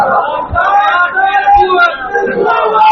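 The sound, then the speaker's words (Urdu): A crowd at a religious gathering shouts a slogan in unison in reply to a preacher's call: loud, massed male voices chanting together in a few surging swells. “نعرہ نعرہ لگاؤ زندہ باد”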